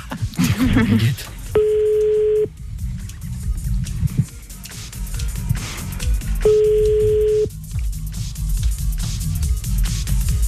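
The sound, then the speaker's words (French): An outgoing telephone call ringing: two steady, mid-pitched ringback tones of about a second each, separated by a pause, with voices and background sound continuing around them. “Allez, gros, on appelle Tata.”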